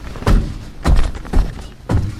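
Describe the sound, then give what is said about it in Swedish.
Knocking on a door: four dull, heavy knocks at a fairly even, unhurried pace, each a loud low thud with short gaps of quiet between. “Knackar på här.”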